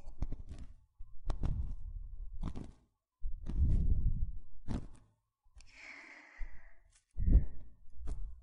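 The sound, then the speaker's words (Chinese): Slow breathing in and out, a series of audible inhalations and exhalations separated by short pauses, with one softer, airy hiss among them. “吸气，吐气，”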